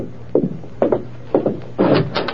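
Door sounds come as a door is opened to a visitor: several dull wooden thuds in an irregular sequence, ending in a longer rattling stretch.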